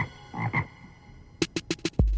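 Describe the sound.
Frog croaking as a sound effect: a few low, rasping croaks, then a quick run of short, sharp croaking pulses ending in a heavy low thud.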